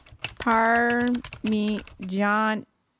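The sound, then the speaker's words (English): Keyboard typing as a search is entered into Google on a computer: short bursts of clicking keys between three sustained, tonal, voice-like stretches. “We're going to type it into the Google, and we're going to pick shopping.”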